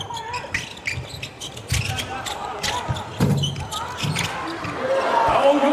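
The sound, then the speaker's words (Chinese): A basketball clanks on the rim a few times and then drops through the basket during a game, sharp knocks heard under steady commentator talk. “这球框上颠了两下之后颠进了篮筐，这也是加巴尔的第三个三分球本场比赛。”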